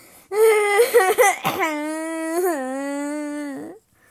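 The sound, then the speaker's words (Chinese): A little princess's wailing cry, voiced as a story performance: high, tremulous sobs break into a long, steady, whining wail that holds for a couple of seconds before stopping abruptly. “小公主又哭了，快擦擦眼泪，宝贝，怎么了？”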